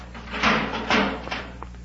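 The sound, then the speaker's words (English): A spaceship's outer hatch opening: a few hollow mechanical thuds and rushing bursts in quick succession, fairly loud and alone without talk. “Leave your ray gun in the ship. I don't think we'll need weapons here. And it might offend Ortho. Yes, sir. But if he tries any more tricks... Let's give him a chance to explain that. Open the hatch.”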